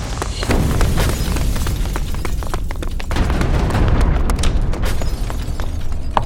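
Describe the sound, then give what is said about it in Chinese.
Explosion in a ship's storeroom, heard as a continuous, loud, heavy rumble that is peppered throughout with many sharp cracks and pops, and no voices. “船上的杂物间发生了爆炸，所幸没什么大。”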